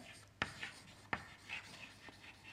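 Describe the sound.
A formula for heat flux is written by hand, with two sharp taps of the writing tool and short, scratchy strokes between them, all faint.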